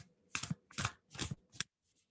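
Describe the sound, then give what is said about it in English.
A tarot card is pulled from a Wild Unknown deck: four soft, quick papery swishes and rustles, faint and close together, then quiet. “Let's pull a card”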